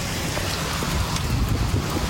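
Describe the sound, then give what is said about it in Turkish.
Heavy rain downpour pours over Bozüyük in Bilecik during a flooding storm, a dense, steady hiss of falling water that stays loud and unbroken throughout, with no voices. “Sağanağın vurduğu bir başka yerse Bilecik Bozüyük'tü. Sele neden oldu.”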